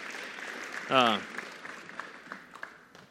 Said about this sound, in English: You guys can give them a round of applause if you'd like to.